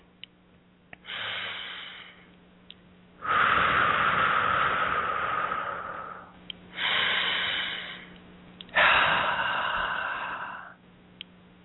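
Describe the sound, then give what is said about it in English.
Slow, deep breathing: four long, airy breath sounds separated by brief pauses, alternating between softer and louder, fuller rushes of air. “Nice deep breaths here.”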